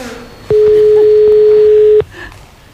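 A telephone call connecting, marked by one steady electronic tone that holds an unchanging mid pitch for about a second and a half. It is fairly loud, then cuts off to faint background noise.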